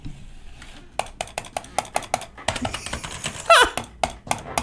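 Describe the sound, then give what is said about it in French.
Repetitive clicking of a computer mouse: many sharp, dry clicks in quick, slightly irregular succession, with no voices. “Le son répétitif d'une souris qui clique, surtout quand t'habites dans un appartement avec une autre.”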